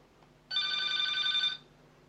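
A telephone rings once, a bright electronic trill lasting about a second that starts and stops abruptly against a faint, steady background.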